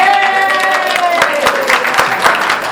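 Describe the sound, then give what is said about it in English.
Audience applause at an ACBL gathering, a steady patter of many hands clapping with voices mixed in underneath, holding at a fairly loud level throughout. “this is a very good group, lots of clapping.”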